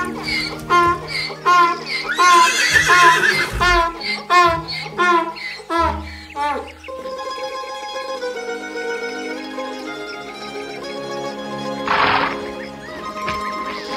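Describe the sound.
A horse neighs in a loud, shrill run of whinnies over the first few seconds, with clip-clop hoofbeats following in a steady patter before the sound settles into a quieter, level background.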